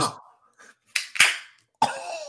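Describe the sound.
A Wild Leap Local Gold beer can being opened: a few sharp cracks and pops, one trailing into a short fizzing hiss, with breaths in between.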